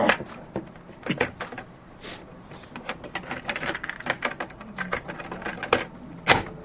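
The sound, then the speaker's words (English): A cassette tape is turned over in its recorder: many small plastic clicks, clacks and rattles of handling, irregular and fairly faint, with a few sharper snaps among them. “I'm going to just turn this tape over.”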